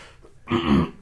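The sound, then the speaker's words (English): A single rough, throaty cough from someone with a lingering cough, a low rasping burst after a faint breath, ending in a sharp catch. No speech. “excuse me, still have a little bit of a cough in me. Apologize for that.”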